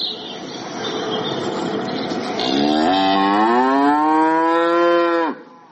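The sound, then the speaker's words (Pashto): Hornless farm cows, large cattle on a farm at Lashkar Gah, give a long, loud moo that rises and holds over a few seconds, after a stretch of lower rustling background noise. “دا غواوې د عادي کلیوالو غو سره فرق لري، ښکرونه نه لري.”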